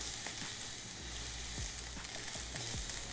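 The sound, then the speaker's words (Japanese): Oysters grilling, giving a steady, bright hiss of sizzling with occasional soft low knocks mixed in, continuous and unbroken, with no voices. “なかなか牡蠣焼くことないじゃん。”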